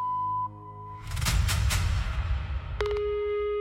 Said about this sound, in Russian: Оставьте сообщение после звукового сигнала.